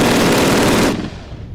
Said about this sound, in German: Vor allem noch im Nachgang dieses, ne, Weghallen, der Nachgeschmack von diesem Schuss zum Beispiel.